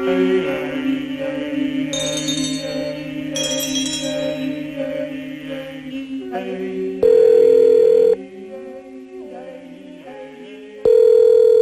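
Outgoing telephone call line tone: two loud, steady tone pulses a few seconds apart, preceded by a stretch of layered, sustained musical tones, with softer shifting tones continuing between the pulses.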